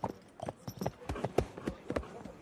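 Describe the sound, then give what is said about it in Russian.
Horses being led away make a quick, uneven clip-clop of hooves, many sharp strikes in irregular rhythm at moderate loudness. “Охрана забирает коней.”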